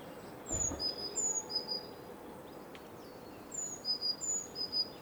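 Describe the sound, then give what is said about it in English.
Tit song: a faint, high-pitched two-note motif repeated quickly in two short runs, with a steady background hiss underneath. “So this is a classic kind of tit sound, high-pitched. It's one little motif.”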